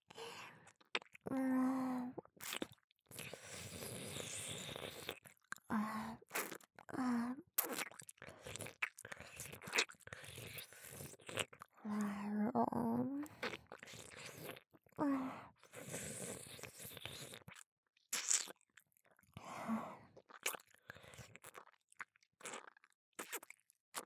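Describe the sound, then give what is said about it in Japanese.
Close, wet ASMR mouth sounds for a pretend eating of the ear: soft smacks, nibbling and chewing clicks come in many irregular bursts, mixed with quiet breaths and short pauses. “お耳、気持ちいい？中まで食べてあげるね。”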